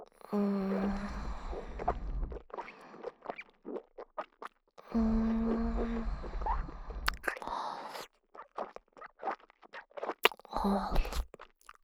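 Food being eaten and chewed: many short, crisp crunching bites and clicks, coming between stretches of a voiced, humming sound.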